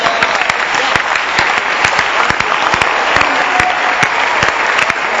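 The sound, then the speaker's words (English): An audience at a church service claps hands together, a loud, dense, continuous patter of many palms with no break across the whole stretch. “Can you clap your hands?”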